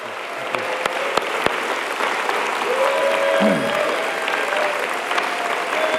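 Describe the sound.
Congregation applause welcoming a guest pastor at a church service: dense, sustained clapping that holds at an even level throughout, with a faint voice heard briefly in the middle.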